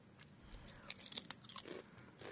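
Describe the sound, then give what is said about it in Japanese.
Crunching on sweet potato chips: faint, crisp bites and crackles come in a quick irregular cluster, with soft chewing noise between them. “いい音。 うん。うん。甘い。 甘い。甘い。あ、甘いポテトチップス。”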